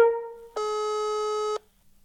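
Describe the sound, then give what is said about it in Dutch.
Telephone ring tone as an outgoing call is placed: a fading tone, then a single steady electronic beep lasting about a second, heard alone before silence. “We gaan bellen.”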